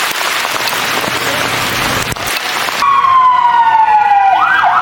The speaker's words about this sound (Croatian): Poplavljenim ulicama Rijeke sinoć su odjekivali zvukovi sirena vatrogasaca i hitnih službi.